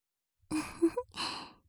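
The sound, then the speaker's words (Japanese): Soft breath is blown close into an ear in two gentle, airy exhales, with a faint voiced hum inside the first. The sound is quiet and intimate and stands alone. “力加減をしっかり調節すれば、こうやってふうふうするだけで感じてもらえるの。”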